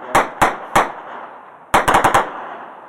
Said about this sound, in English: We've been taking a sporadic smaller fire here in the area, here in Sadr City. These guys are they're pretty quick and sneaky. They'll just do random shots and take off.